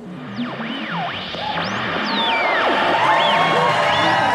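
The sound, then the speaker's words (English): Fake audience cheering sound effect, queued up for a live show: a steady crowd roar with whoops and swooping, whistle-like tones, growing louder over the few seconds. “Okay, I think I have the fake audience noises all queued up here. Take it away, sir.”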